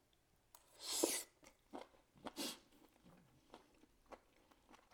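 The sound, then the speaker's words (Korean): Someone eats spicy chicken feet coated in sauce, making two louder crunchy bites followed by quieter, irregular chewing and smacking sounds, all faint and with no talking. “닭발부터 소스 안 빠뜨린 걸로 먹어볼게요.”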